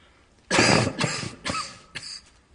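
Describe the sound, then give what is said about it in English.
Coughing from someone with a tickle in the throat. One loud, harsh burst comes first, followed by a few weaker coughs at a steady pace, with no talk. “Excuse me. Got a tickle in my throat.”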